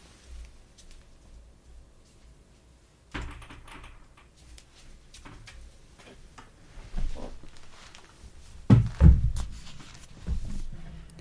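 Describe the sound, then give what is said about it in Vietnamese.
A door being closed lands as a heavy, low thud near the end, rising out of a quiet background of rustling and light clicking. “Mình đóng cái cửa nữa”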